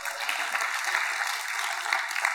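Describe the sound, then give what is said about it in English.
Dense, steady clapping from a church audience at an evening Bible teaching, a continuous even wash of handclaps with no pauses. “But I'm not done yet. So don't clap too much.”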